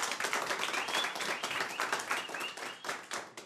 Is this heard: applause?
yes